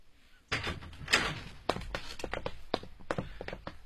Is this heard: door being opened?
yes